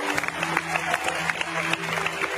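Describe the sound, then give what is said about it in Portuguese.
Clapping fills a church service as worshippers applaud for Jesus. The claps land in a loose, repeated rhythm over a sustained low tone. “dê uma linda salva de palmas para Jesus.”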